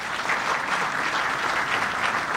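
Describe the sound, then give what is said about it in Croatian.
An audience at the 20th international trade fair in Tešanj applauds in a dense, steady burst of many hands clapping, even in loudness from start to finish. “20. sad već jubilarni međunarodni sajam privrede Tešanj u organizaciji Udruženja privrednika Biznis centar Jelah Tešanj i u to ime molim vas za jedan veliki aplauz.”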